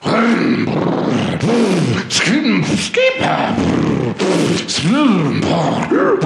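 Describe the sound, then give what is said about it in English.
A voice imitates a go-kart engine warming up at a go-kart championship, with loud, repeated growling revs that rise and fall in pitch in many bursts, punctuated by a few sharp vocal pops. “I'm warming up my go-kart.”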